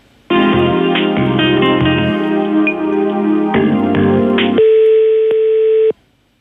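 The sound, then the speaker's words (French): Electronic telephone line tones heard while a call is being transferred: a loud sequence of stepped, buzzy notes changing pitch, ending in a steady held tone that cuts off abruptly. “Alors un instant, je vous mets en relation avec un service.”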